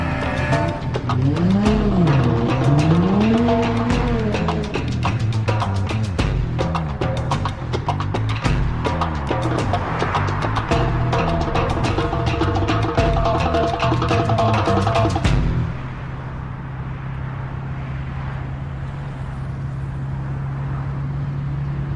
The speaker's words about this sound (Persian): سوار ماشین میشه دنده عقب میگیره و میرن